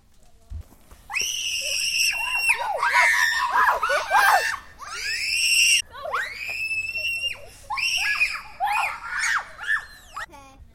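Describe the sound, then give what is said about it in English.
Shrill, repeated screaming comes from a person riding a playground spinner with others aboard, in many high-pitched bursts separated by short breaks. “my friend, screaming on the spinny thingy”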